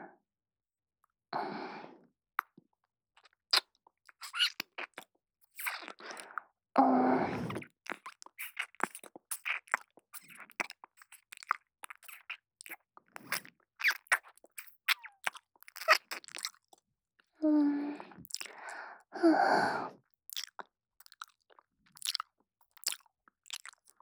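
Crunchy food is bitten and chewed. Many sharp, crisp crackles come in irregular bursts across a quiet background, with a few soft breathy mouth sounds between them and no talk.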